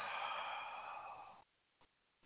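A long deep exhale during a guided breathing exercise: a steady, breathy rush of air that lasts about a second and a half and fades out, followed by a couple of very faint short sounds.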